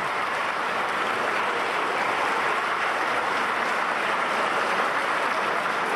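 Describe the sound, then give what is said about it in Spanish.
Steady applause from a crowd at a neighborhood community meeting, a dense, even clatter of clapping that holds at the same loudness for several seconds with no voices over it. “se den un gran aplauso por esta convocatoria.”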